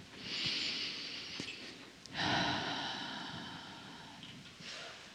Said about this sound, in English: And take another breath.